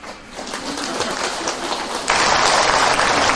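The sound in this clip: Hand clapping during Buddhist chanting of Amitabha Buddha's name: dense, irregular claps that jump louder about two-thirds of the way through and stay strong to the end.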